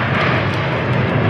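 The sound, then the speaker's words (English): Navy Blue Angels jets flying into Billings produce a loud, continuous roaring rumble with a dense, rushing hiss, holding steady throughout. “That's the sound of the Navy Blue Angels as they flew into Billings from Oregon last night for the Yellowstone International Air Show this Saturday and Sunday.”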